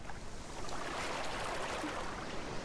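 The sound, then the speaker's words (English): Distant ocean waves at a beach give a soft, steady wash of surf. The broad hiss holds even throughout, with no distinct breaking crashes. “we can hear the distant sounds of the waves.”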